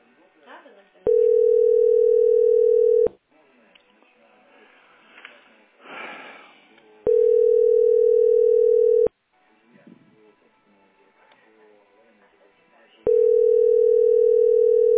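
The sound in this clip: Ringback tone of an outgoing telephone call, three steady single-pitch tones of about two seconds each separated by longer pauses, with faint voices and sniffing in the gaps.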